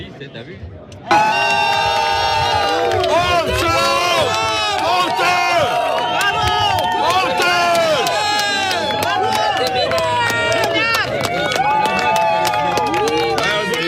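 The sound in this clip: A crowd of about 200 disaster victims boos a politician outside a town hall, a loud, dense mass of shouting voices that starts abruptly and holds steady without a break.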